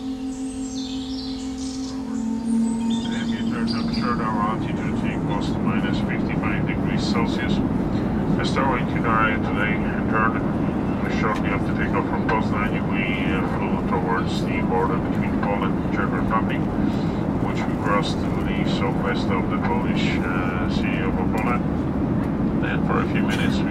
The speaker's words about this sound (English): Northbound listener from Tatabánya, Hungary, plane nearby sound.